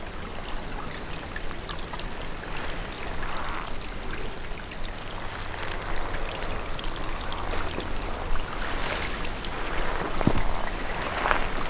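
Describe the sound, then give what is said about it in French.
A small trickle of water flowing gently: a continuous soft, bubbling wash with faint drips, steady and quiet throughout. “Et où s'écoule délicatement un petit filet d'eau.”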